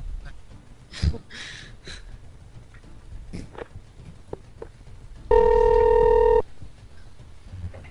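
A telephone rings while a call is being transferred: after soft rustles and breathy noises, one loud, steady ring tone sounds for about a second, then the line goes quiet again.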